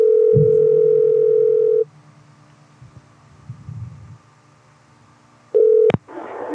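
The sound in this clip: A telephone dial tone sounds while a prank call to a fast-food restaurant is being placed. The loud, steady tone cuts off and leaves a faint low hum with soft throbbing, then briefly returns before a short burst of noise.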